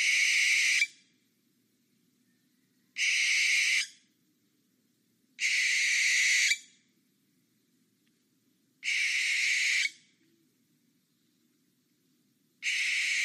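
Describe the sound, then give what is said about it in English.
Owl screeching: five harsh, hissing screeches, evenly spaced a few seconds apart, each about a second long, loud and alone against near silence, the last one cut short. “which I'm sure you recognize as the screeching of a murder owl”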